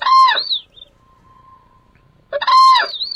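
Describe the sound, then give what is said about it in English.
Crane chicks call from their pen in Georgia, where they are trained to follow ultralight aircraft. Two bursts of loud, high, warbling chirps are separated by a quiet pause with only a faint steady hum. “In this video shot by Operation Migration yesterday morning, crane chicks wait in their pen in Georgia for the day's flight behind ultralight aircraft”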